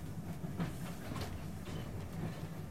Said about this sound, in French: Mesdames et messieurs, dans quelques instants, notre train des souvenirs entrera en gare de Paris-Montparnasse, notre terminus.